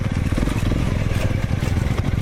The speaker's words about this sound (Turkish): Taşlı yollardan geçtiler, dik yamaçları aştılar. Osmaniye'de bir grup motosiklet tutkununun hedefi Amanos dağlarındaki Keldaz mevkisiydi.